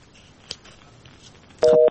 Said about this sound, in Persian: فکر کنم تماسشان قطع شد.